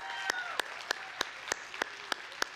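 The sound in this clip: Applause from a church audience welcoming its online viewers: a faint, steady patter of clapping with eight sharp, evenly spaced clicks cutting through at a regular pace.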